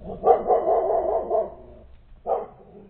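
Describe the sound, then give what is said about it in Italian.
A dog's mournful howl: a drawn-out, wavering cry of about a second and a half, then a pause and a second, shorter cry. It is loud and clear, with no voices. “che s'udì il lamentevole urlio d'un cane”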